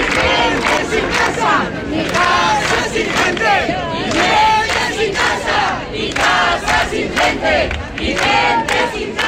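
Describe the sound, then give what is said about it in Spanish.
A protest crowd chants at a rally against housing speculation in the Plaza de España in Badajoz, Spain. Many voices shout together in a loud, continuous, rhythmic roar with only brief dips. “Este es el sonido de la tarde en Extremadura. A esta hora está teniendo lugar en la Plaza de España de Badajoz la concentración convocada por la plataforma Inquilinato Badajoz”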